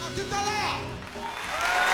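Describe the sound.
Applause from an audience, a dense wash of clapping that rises and falls slightly, with voices and tonal sound over it.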